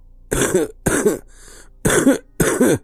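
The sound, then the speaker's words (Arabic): Dry coughs from a man in a dramatized horror story: four harsh, rasping bursts spaced about half a second apart, with a faint short sound between the second and third. “الكحة عندك ناشفة اوي، انت كشفت يا ابني؟”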